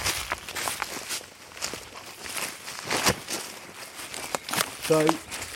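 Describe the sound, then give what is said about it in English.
Footsteps crunch as someone walks down from a house into woodland, a steady run of many soft, crackling steps with rustling between them. “So we've just walked down from the house into the woodland below.”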